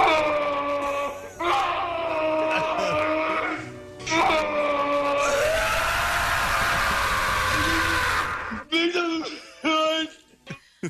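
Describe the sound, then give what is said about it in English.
A man wails in long drawn-out cries with wavering, bending pitch, the sustained tones giving way to a harsh, noisy screaming stretch midway, then ending in a few short broken wails. “He starts wailing.”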